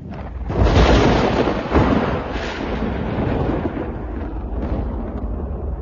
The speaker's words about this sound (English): There was a storm and in the middle of the night